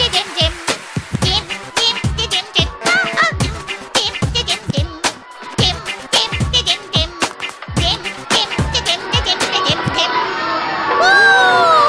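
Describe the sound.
A crowd shouting boo at a singer on stage: many voices yelling in loud, choppy bursts, jeering continuously with no pause.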